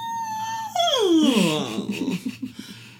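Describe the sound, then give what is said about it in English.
A dog waking and vocalising gives a drawn-out whining howl that slides down in pitch, then breaks into a few short, uneven whimpers. No talk is heard. “my dog, wake up. Yeah. She goes,”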